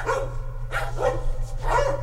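Dogs bark three times in quick succession, loud, mid-pitched woofs with short gaps between them and no voices.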